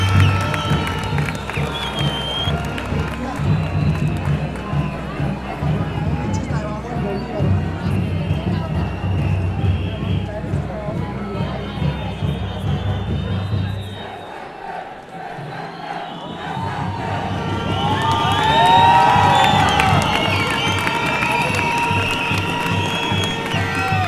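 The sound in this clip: Crowd cheering and applauding at a student march for education, a sustained roar of voices and clapping that dips briefly midway and then swells again, with shouts rising near the end.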